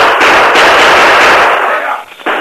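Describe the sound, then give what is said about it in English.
Gunfire in a radio drama shootout at a bridge over a river: a loud, dense barrage of shots roars for about two seconds, drops briefly, then bursts again. “Shoot! Fire! Gun flashes inside bridge.”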